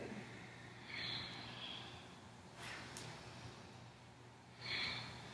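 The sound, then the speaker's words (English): Forceful breathing during a side-to-side leaning exercise, inhaling on the left lean and exhaling on the right. A few soft, airy rushes of breath rise briefly above a quiet background hiss. “Use a powerful breath. Inhaling left, exhaling right.”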